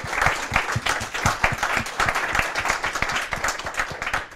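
Audience applause follows a Friday lunchtime lecture at CERN about the arts, a dense, steady wash of many hands clapping that holds at an even loudness for the whole stretch without letting up.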